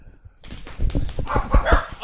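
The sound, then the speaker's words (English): Many dogs barking together, a dense run of loud, rough barks and yelps that start after a short quiet lead-in and keep overlapping to the end. “Oh, it's so many dogs. Oh, God. That's part of the reason we haven't done it. Yeah, that's all right. The dogs are barking. They almost knocked over my beverage.”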